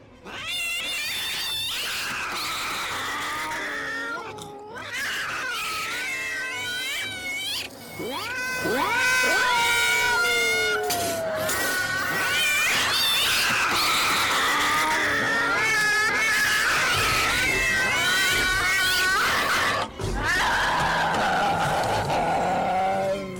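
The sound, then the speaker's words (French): Loud cats yowling and meowing, many wavering, sliding cries that overlap and rise and fall in pitch, continuing almost without pause and with a few brief gaps. “Ce n'est rien. Ce ne sont que des chats. Ce n'est pas grave.”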